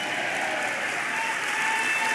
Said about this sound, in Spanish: Vamos, dele palmas, dele palmas al Señor.